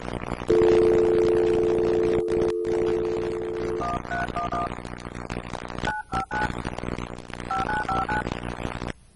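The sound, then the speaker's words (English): Telephone signalling tones played by a script for caller ID: a long steady two-note tone, then three quick groups of short dual-tone dialing beeps, all over constant background noise. “So here we go. This is the caller ID one.”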